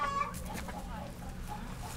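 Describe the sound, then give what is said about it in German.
Chickens clucking at a small chicken farm. A few soft, short clucks sound faintly over a low, steady background. “Sie mistet den Stall aus und sammelt die Eier ein. Auch die Hühner sind äußerst zutraulich.”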